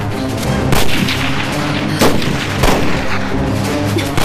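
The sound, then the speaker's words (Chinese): Gunfire as an enemy opens fire in battle: dense, loud, continuous crackling and rumbling, with a few sharper blasts standing out from the barrage. “糟了，敌人提前开火，先不要动手。”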